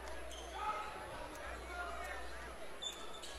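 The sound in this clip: A basketball is bounced on the court before an inbound pass in a men's college game between Three Rivers and Mineral Area: a few faint, dull thuds beneath a soft crowd murmur.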